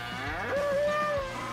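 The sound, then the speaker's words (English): A Mexican fighting bull bellows at a freestyle bullfighting rodeo event: one long, loud, drawn-out tonal call that holds steady before tapering off. “Watch 9 of the country's best freestyle bullfighters take their minute in the ring with a Mexican fighting bull.”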